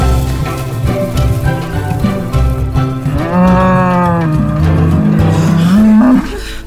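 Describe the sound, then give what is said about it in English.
A cow in labor moos loudly. The deep, drawn-out lowing is sustained and strained, and its pitch rises toward the end before it fades. “She's making noises like moo, moo, moo. That is labor.”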